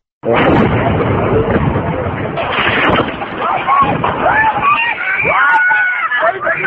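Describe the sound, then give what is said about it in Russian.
Demolition blast of a 50-metre stone memorial, recorded on a mobile phone, as stone chunks fly toward people in a residential courtyard: a sudden loud onset, then sustained rumbling noise with people shouting and talking over it. “Это звук со снятого мобильным телефоном видео, на котором видно, как от места взрыва 50-метрового мемориала огромные каменные куски летят в людей, стоящих во дворе близлежащих домов.”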